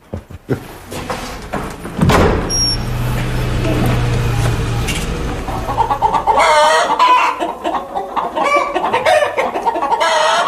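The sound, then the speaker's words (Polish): Hens cluck on a rural farmstead, with busy, loud, overlapping clucks and squawks sounding alone and growing more agitated and dense toward the end. “No, to cicho, kury.”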